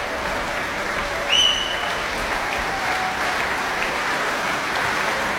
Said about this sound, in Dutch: ik schat inderdaad zo'n 400 man, blijft enthousiast klappen. En hoopt dat het kwartet nog een keer terugkeert.